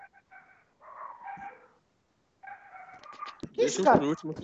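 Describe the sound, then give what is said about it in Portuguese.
A neighbour's dog barks in a series of faint, high, whining yelps that come in short bursts with brief gaps, followed by a voice at the end. “De quem esse cachorro miserável que tá latindo aí, velho? Não é daqui, não.”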